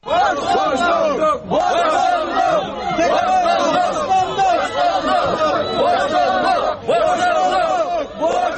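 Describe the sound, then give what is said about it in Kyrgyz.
Protesters chant demands in unison at a rally in Bishkek, in front of the state security committee building, calling for a jailed opposition leader's release: a loud, sustained mass of voices in rhythmic shouted phrases broken by brief pauses. “Деген митингчилер буга чейинки талаптарын кайталашты.”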